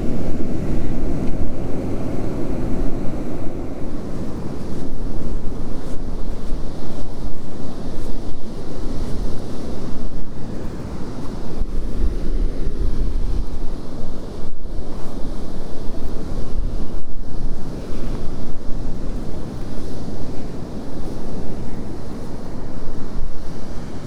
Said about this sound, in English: And I think I'm going to have a problem with the wind today.